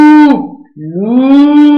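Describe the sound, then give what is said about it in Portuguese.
An ox bellowing in two drawn-out moos: the first fades and falls away, and the second starts low and swells into a long, loud, steady low bellow. “Era uma velha que tinha um boi. Debaixo da cama o tinha. O boi berrava.”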